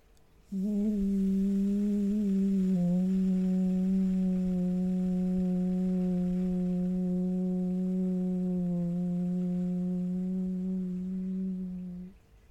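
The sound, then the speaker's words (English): A deep, voiced 'woo' is sustained on a long exhale as a steady, low, humming tone held for about eleven seconds, alone with no talk. “So deep breath in, and as you exhale, with a deep sound of woo.”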